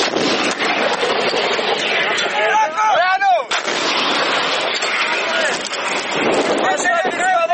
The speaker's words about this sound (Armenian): Պաշտպանության բանակը պատասխանեց կրակով. Կրակով!